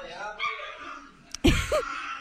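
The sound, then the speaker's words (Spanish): An angry chihuahua barks in a viral video, giving a couple of sharp, high yaps that stand out briefly over ongoing talk and background sound. “Es que los chihuahuas son bien intensos, ¿eh? ¡Ve nomás! ¡Está enojado!”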